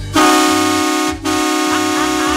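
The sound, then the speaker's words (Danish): A truck's horn honking in two long, loud, steady blasts: the first lasts about a second, then after a brief break the second holds to the end. “da jeg truttede i hornet på lastbilen.”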